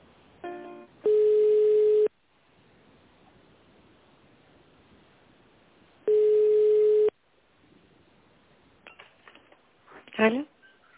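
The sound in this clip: Telephone ringback tones play while a call is transferred to an accounting department: two long, steady, buzzing tones, each about a second, separated by a few seconds of quiet line hiss, with a brief crackle near the end.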